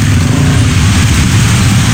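Road traffic flows through the Bandulan area, with cars driving past. A loud, continuous engine roar with a deep rumble holds steady throughout, and no voices are heard.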